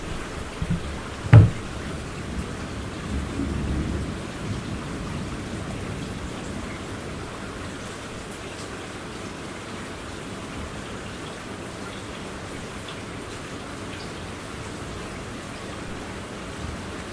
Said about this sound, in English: The drainage system taking a beating, as we have seen before. And you can hear the thunder outside.